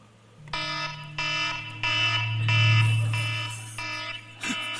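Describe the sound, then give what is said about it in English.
An alarm on a device used as both a stopwatch and an alarm clock rings as a series of harsh, buzzy electronic beeps in an even rhythm, loud and insistent over a low steady hum. “That is my alarm that I use for both a stopwatch and an alarm clock”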